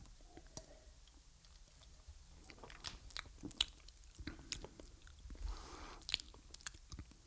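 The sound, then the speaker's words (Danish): Lips smack and the mouth works while a Christmas beer with orange is tasted, many faint wet clicks and smacks scattered in an irregular rhythm over a quiet background. “Skal vi prøve at smage på den? Ja, lad os prøve måske lige, øh, lige skåle. Det er altid godt. Ja. Og man må også godt smaske i den her podcast.”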